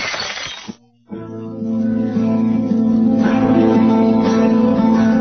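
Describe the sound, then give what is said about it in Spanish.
Mirror glass shattering as a sound effect: a brief, bright crash at the start, a short near-silent gap, then a sustained tonal hum that carries on to the end. “Entonces Julius no podrá evitar suicidarse y destrozará otro espejo.”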